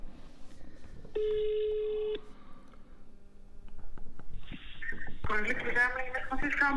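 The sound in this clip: A telephone call rings out over a speakerphone: one steady, buzzy tone of about a second, a quiet stretch with faint clicks, then a voice picks up and speaks loudly over the line.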